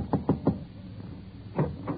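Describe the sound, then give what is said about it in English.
Knocking on a door in a radio comedy: three quick raps, a short pause, then two more, each a dull, hollow knock. “Yeah, I'll knock on the door and see if she's ready to leave.”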